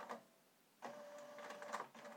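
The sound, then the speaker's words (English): A printer resumes printing after being paused. After a brief quiet lull, a faint, steady mechanical whir and chatter starts up and carries on. “this printer has been paused. Do you want to resume printing?”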